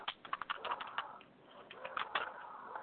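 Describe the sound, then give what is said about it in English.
Laptop keys click rapidly in uneven bursts, faint and thin as heard over a Skype connection, with short gaps between runs of keystrokes. “Sounds like he's really doing well with that laptop. I can hear him just click, click, click.”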